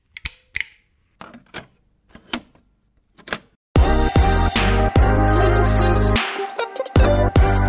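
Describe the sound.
Button presses give a few sharp, separate clicks at irregular intervals, then loud music abruptly takes over and continues.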